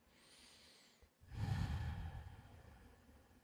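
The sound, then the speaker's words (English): A deeper breath during a guided breathing exercise: faint breathing at first, then a fuller, louder exhale that swells and slowly fades. “Returning to a normal breath. Just a little deeper breath here.”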